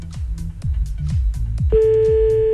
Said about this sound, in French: 21h41, c'est parti, on y va, on appelle.